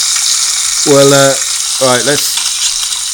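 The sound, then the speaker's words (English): Sausage, mushrooms and tomatoes fry in a pan with a loud, continuous sizzling hiss, while two short voiced sounds rise briefly over the crackle. “Let's get the mushrooms and tomatoes going in the pan as well. That'll be absolutely delicious here. Yeah, move that sausage around a little bit.”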